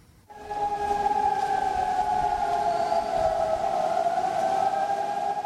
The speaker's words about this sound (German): Seit den frühen Morgenstunden sind sie zu hören, die Sirenen, die Lautsprecher durchsagen, mit denen die Bewohner der moldaunahen Stadtteile zum Verlassen ihrer Wohnungen aufgefordert werden.